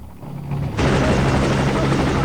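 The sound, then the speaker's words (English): A helicopter comes in to land amid a cloud of dust at an army base. Its loud, dense rotor and engine roar swells abruptly partway through and then holds steady to the end. “Later, the chopper's landing amidst a cloud of dust.”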